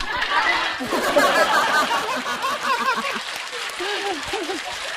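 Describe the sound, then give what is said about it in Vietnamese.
Audience applause mixed with scattered chuckles and murmuring voices, a fairly loud, continuous patter that rises and falls. “Vỗ tay đi.”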